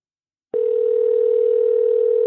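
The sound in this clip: A telephone dial tone sounds while a call is being placed: a steady, loud, unbroken tone begins abruptly after a moment of silence and holds at a constant pitch to the end.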